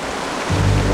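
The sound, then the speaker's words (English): Rain falls steadily as a dense, even hiss, growing louder with a deeper rumble about halfway through. “It's rain.”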